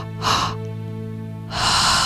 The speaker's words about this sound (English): Nice big expansion. Remember, belly, chest, release. Expanding the diaphragm, expanding the ribcage as much as you can. Nice deep breaths.